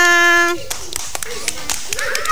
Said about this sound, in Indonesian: Tepuk tangan semua.